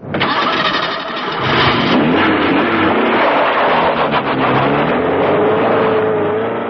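A car engine cranks and starts, then keeps running loudly and steadily with a wavering mechanical whine throughout.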